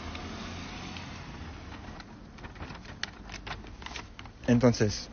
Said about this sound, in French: Je vous présente maintenant la carte, la nouvelle carte. Pouvez-vous la déplier, s'il vous plaît ?